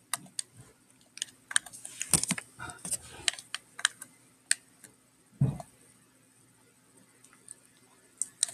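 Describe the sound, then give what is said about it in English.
Someone types on a computer keyboard, producing sparse, irregular keystroke clicks with gaps between them and a couple of heavier thumps mixed in. “Type it in chat.”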